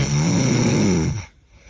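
A person snoring: one long, loud, rasping low snore that holds for over a second, then cuts off into near quiet.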